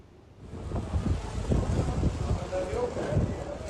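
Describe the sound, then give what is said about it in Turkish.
Strong storm wind roars and buffets the microphone during a severe storm, a dense, low rumbling rush that swells after a quiet start and keeps gusting unevenly. “Aşırı bir rüzgar var. Ağaçlar yerinden çıkacak sanki.”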